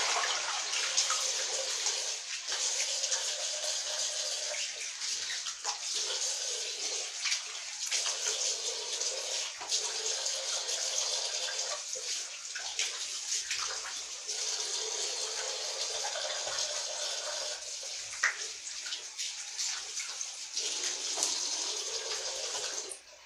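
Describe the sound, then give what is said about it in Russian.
Steady running water pours without a break for over twenty seconds, a constant splashing hiss with small ripples in loudness and no voices. “водичка успокаивает, конечно, это хорошо.”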